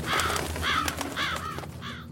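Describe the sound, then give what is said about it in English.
Birds call with harsh, crow-like caws, several hoarse, rasping cries repeating at a steady rhythm, loud and alone. “It's just birds.”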